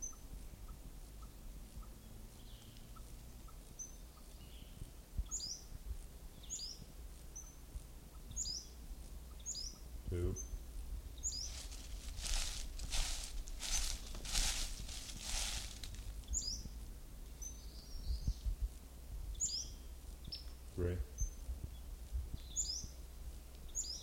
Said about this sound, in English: Western Flycatcher number one.